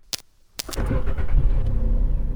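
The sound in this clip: A Japanese car's engine starting: a few sharp clicks, then the engine catches and settles into a steady, low, rumbling idle that continues to the end.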